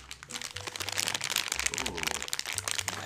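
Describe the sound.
Crinkling of a bag of Thai coconut peanut M&M's candy: many sharp, irregular crackles run densely through the whole clip at a steady, moderate loudness.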